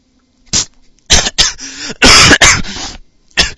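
Coughing fit with choking, several harsh, rasping bursts separated by short pauses, the middle ones longest and loudest, ending with one brief final cough.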